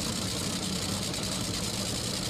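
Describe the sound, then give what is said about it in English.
A race car engine idles after a twist of the idle adjustment screw, giving a steady, even, rough hum that does not rise or fall. “A little twist of the screw for the idle adjustment.”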